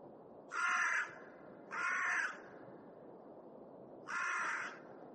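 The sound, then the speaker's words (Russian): A crow cawing: three harsh, drawn-out caws, the first two close together and the third after a pause, loud over a low, constant background rumble. “Ворона кричит. Снег пойдет.”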